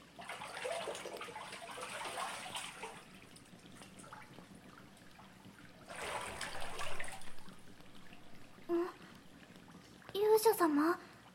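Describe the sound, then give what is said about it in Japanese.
Water is poured over someone's body in a bath, heard as two soft, splashing pours separated by a quiet pause, followed by a brief voice toward the end. “お体お流しします。”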